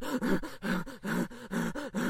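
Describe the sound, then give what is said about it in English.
A voice imitates a pug struggling to breathe, making a rapid run of rhythmic, throaty snorting wheezes and grunts. The voiced bursts repeat steadily with no talk. “What if one of them really can't breathe and it's one of the loudest sounds in the scene? It's just this little pug going”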